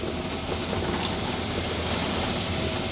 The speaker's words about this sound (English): You can hear the back wheel spinning.